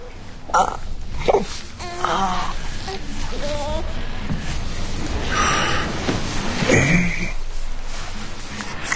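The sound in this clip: A fussy baby boy cries in short, wavering wails and whimpers that break off and start again over a steady background hiss.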